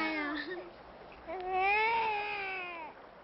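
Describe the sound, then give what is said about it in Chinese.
A baby boy crying: a short whimpering wail followed by a longer, louder tonal cry that swells and then trails off, with no talk over it. “孩子一见生人就哭了”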